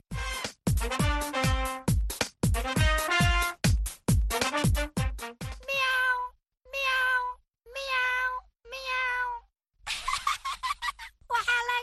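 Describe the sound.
A cat meowing in a children's programme: a long series of tonal calls, quick and closely spaced at first, then several drawn-out meows separated by short silences.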